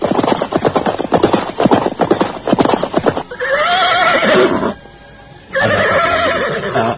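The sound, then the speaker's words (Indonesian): Horses of two mounted soldiers: a quick, irregular patter of hoofbeats gives way to two loud whinnies separated by a brief pause. “dua orang prajurit berkuda datang menghampiri mereka.”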